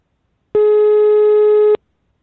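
A single steady electronic telephone tone sounds during a phone call. It is a flat, buzzy pitch held alone for just over a second, then it cuts off cleanly.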